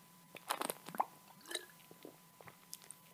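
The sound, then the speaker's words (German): Beer being drunk and swallowed, heard as a few soft, wet gulps, plops and mouth clicks. They are quiet and irregular, with no talking. “Jetzt möchte ich weiter trinken. Ich habe zwar hier ein Bier, aber es ist ja blöd, wenn ich immer schlucke, oder?”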